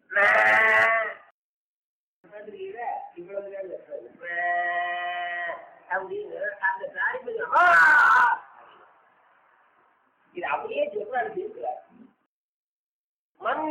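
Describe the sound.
A calf bleating, a few drawn-out calls with one loud harsh cry, mixed with a man talking between them.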